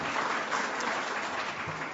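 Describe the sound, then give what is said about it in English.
Audience applause breaks out during a speech about government debt: dense, steady clapping that stays even and loud for the whole two seconds. “I didn't expect an applause on that line.”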